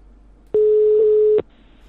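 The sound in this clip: A telephone busy signal sounds as a single steady mid-pitched beep that starts and stops abruptly, with quiet line hiss before and after.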